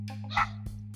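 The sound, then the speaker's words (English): A dog barking in the background, with a brief sharp bark and a softer second one over a steady low hum. “oops, sorry, my dog's just barking in the background, I don't know if you can hear that”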